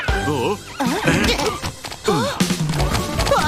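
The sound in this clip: A cartoon iron pony whinnies in several loud, wavering bursts, one after another, across a few seconds.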